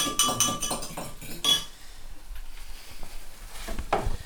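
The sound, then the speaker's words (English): A spoon stirs vegetable stock in a pot, giving a few bright metallic clinks and scrapes early on, followed by quieter, softer stirring and rattling. “Oh, that's a good noise. That's me stirring a veg stock.”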